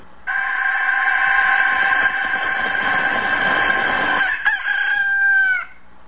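A rooster crows in one long, loud, sustained call lasting about five seconds, bright and strongly tonal, heard alone with no voices before the call cuts off.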